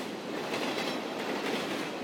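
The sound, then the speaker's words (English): A steam locomotive train sound effect gives a dense, steady rumble and hiss with faint rhythmic pulses throughout, loud and continuous, without voices. “Just kidding, we've installed a live steam locomotive in the station.”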